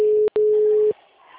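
Electronic telephone ring tone: a loud steady single-pitched tone broken by one brief gap, then cut off into near silence.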